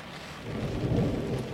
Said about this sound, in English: I think you just feel a little bit scared from the storm.